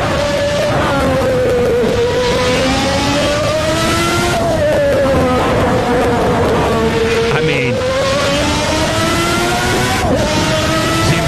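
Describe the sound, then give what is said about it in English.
Loud, steady race car engine lapping the Nürburgring circuit, a strong harmonic whine that holds and rises, then drops abruptly a few times before building again, with no pause throughout. “So if he brakes too hard, he could flat spot the tires and go off the course. Damn it, it always takes me off. And this is Nürburgring”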